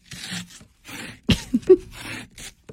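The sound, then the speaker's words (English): A credit card rasps in mimicry of scraping ice off a frozen windshield: several short, gritty scraping strokes with brief gaps, some harsher and louder than others, ending in a small tap. “You got to take the credit card, do a little of this.”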